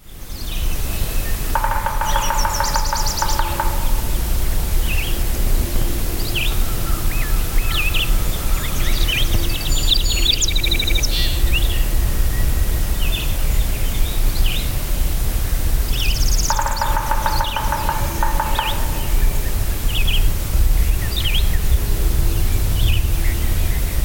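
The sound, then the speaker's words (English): Black-and-white warbler singing thin, high, squeaky notes in quick repeated series across several phrases over steady background hiss. A lower buzzy tone sounds twice. “Black and white warbler.”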